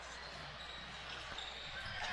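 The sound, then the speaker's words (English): Faint basketball dribbling on a court during a high school game, soft bounces nearly buried under a steady wash of crowd noise. “Dribbles to the right side.”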